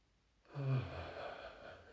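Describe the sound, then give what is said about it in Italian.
A deep inhalation during a guided meditation: one breath is drawn in after a brief quiet, with a breathy, slightly wheezy rasp that swells quickly and then slowly tapers off. “Inspiro e sento che mi sto riempiendo di energia.”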